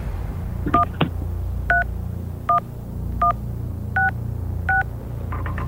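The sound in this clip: Phone keypad tones dial a number on a phone held up to a microphone: six short, evenly spaced beeps over a low background hum.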